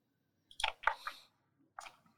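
Chewing on a barrel pickle: a few faint, wet crunching bites, closely spaced in a short cluster, then a brief pause before one more chew.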